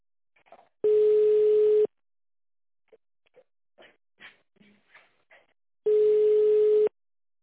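Telephone ringback tone of an unanswered call: two steady, even, mid-pitched buzzing tones, each lasting about a second, separated by a long pause with only faint scattered ticks and rustles.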